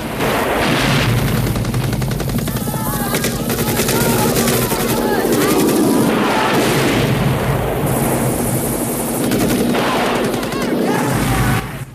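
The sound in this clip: Rapid machine-gun fire and explosions from an assault on a guarded camp, after missile strikes on a walkway. The din is loud and dense throughout, with stretches of fast repeated shots.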